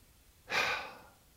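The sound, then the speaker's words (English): One slow, calming breath: a soft airy whoosh rises quickly, then fades gradually over most of a second, heard alone against a quiet background. “And yeah, people are going to hear you breathe and they're going to wonder what the hell you're doing”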